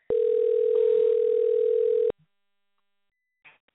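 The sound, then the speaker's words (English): A steady, loud telephone dial tone plays alone for about two seconds while a call is being redialed, then cuts off, followed by a few faint, brief clicks. “to try to dial her back in one more time and see if we can get our guest back online. Let's see. Dialing one more time.”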